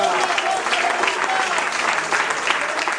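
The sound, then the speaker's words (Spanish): A church audience applauding, dense steady clapping from many hands, loud and continuous for the whole stretch with no pauses. “¿Cuánto le damos aplauso a Cristo?”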